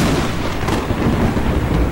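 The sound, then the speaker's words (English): Thunderstorm on a winter night, with rain, cold wind and lightning: a dense, continuous rumbling roar of rain and wind with deep thunder-like rolling underneath, steady throughout with no clear breaks and no voices. “It rained all night. Cold wind blew. Lightning flashed.”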